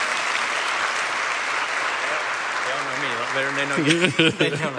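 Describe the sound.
Applause from a church audience welcoming two people up to the stage: dense, steady clapping that fills the whole clip, with a voice starting to speak over it near the end.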